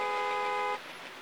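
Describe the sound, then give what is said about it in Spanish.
A single car horn blast in city traffic: a steady, buzzy, harmonic-rich tone holds for under a second, then cuts off abruptly, leaving quiet background hum. “José se sentía muy estresado por el ruido de bocinas, sirenas y carros de la ciudad”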